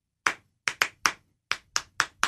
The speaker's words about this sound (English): We're just clapping at each other.